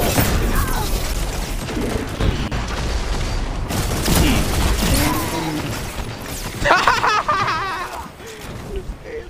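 Mechanical clacks and ratcheting of a weapon being reloaded in a Destiny 2 Crucible match, set against dense game noise with bursts of gunfire and low booms.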